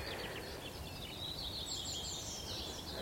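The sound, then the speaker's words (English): Skylark singing above woods next to open grassy moorland: a faint, high, continuous warbling trill that flutters on throughout over a soft steady background hiss. “There's a skylark singing. Up above the woods, its nest is out in the grassland.”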